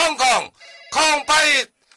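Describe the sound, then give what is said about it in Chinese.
A telephone rings with an incoming call, a brief high electronic tone sounding in a short gap between stretches of a person talking. “来，要来电话”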